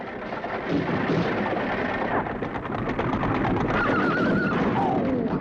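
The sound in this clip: A horse-drawn carriage gallops across open wasteland, with a dense, continuous rumble of hooves and wheels filling the whole clip and a horse's high, wavering neigh cutting through near the end.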